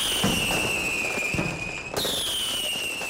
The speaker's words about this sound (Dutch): Als je dan zo kijkt, is het toch wel erg leuk, hè? Zo al dat vuurwerk zo.